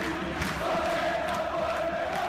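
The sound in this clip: Beitar football supporters cheering in a somewhat subdued way during a match against Larnaca, a steady low crowd murmur with a sustained chanting hum running throughout.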